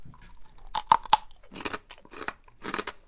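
A hard, crunchy local delicacy from Kagoshima is bitten and chewed. A few sharp, crisp crunches come in quick succession, followed by softer, irregular chewing crunches, all fairly faint and with no talking.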